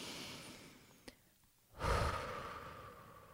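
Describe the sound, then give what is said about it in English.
A deep breath drawn in through the nose and let out through the mouth. The soft, airy exhale swells in after a brief lull and then fades slowly, with no talking. “let's just take a deep breath, shall we? In through the nose, out through the mouth.”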